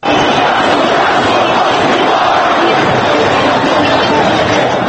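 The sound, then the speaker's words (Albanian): Loud crowd noise and cheering from thousands of demonstrators camped in Tahrir Square, Cairo, reacting to televised news, a dense, unbroken roar of massed voices and shouts. “Në sheshin Tahrir në Kairo, ku mijëra demonstrues kanë ngritur kampe gjatë këtyre ditëve, njerëzit i shikonin lajmet në ekranet televizive dhe reagonin me zhurmë dhe brohoritje.”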